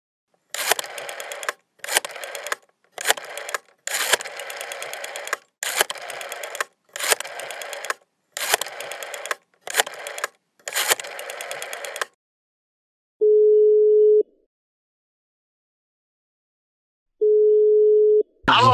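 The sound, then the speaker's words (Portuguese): A telephone call being dialed: a long run of short, buzzy bursts separated by brief gaps, then silence, then two long, steady ringing tones. “Agora vamos telefonar para Fabrício Rodrigues, um ex-apresentador do programa que ninguém mais lembra.”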